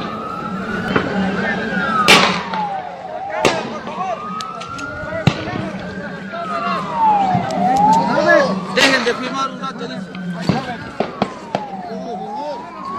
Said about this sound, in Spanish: Veamos en pleno tiroteo con munición letal sobre el pueblo desarmado, es el reporte número 5.